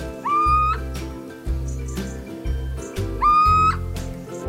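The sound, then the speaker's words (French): Owl calls from tawny owl, barn owl and little owl: two loud, clear whistled calls that each rise sharply in pitch and then hold, with a low rumbling background throughout. “Donc la chouette hulotte, la chouette effraie et la chevêche d'Athéna.”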